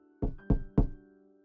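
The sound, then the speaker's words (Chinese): Three firm knocks on a door, evenly spaced and loud, each a short dull thud, over a faint steady hum. “门外有人敲门”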